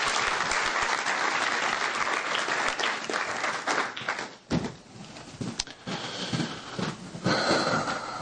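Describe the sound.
An audience claps in sustained, dense applause as people are invited to sit down and thank a speaker; the clapping dips briefly midway, then continues loud and even to the end.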